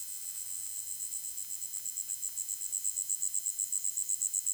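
Cicadas chirp by a brook in a steady, high-pitched pulsing drone, fairly faint, its rhythmic beat growing more distinct and slightly louder toward the end.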